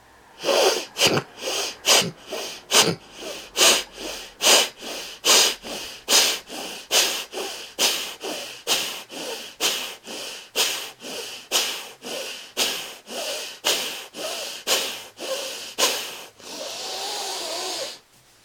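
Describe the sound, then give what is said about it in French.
Forceful exhalations through the right nostril, left nostril closed, during an alternate-nostril yoga breathing exercise. Many short, sharp nasal puffs follow in a steady rhythm, ending with a longer, drawn-out breath. “Index et majeur entre les sourcils, fermez la narine gauche, expire par la narine droite, 12 fois.”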